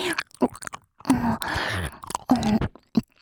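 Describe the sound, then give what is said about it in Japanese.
Wet mouth sounds as a caramel-flavoured candy is rolled around the mouth: soft clicks, smacks and sucking noises in several uneven bursts, quiet and unaccompanied. “予想通りのキャラメル味ね。コロコロ。”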